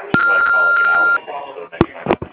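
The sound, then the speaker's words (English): An answering machine beep before leaving a message: a steady, high tone lasting about a second, with brief breaks, amid voices. “If you want to leave us a message, do so after the beep.”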